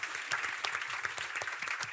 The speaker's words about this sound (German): Also erstmal Applaus an Selma.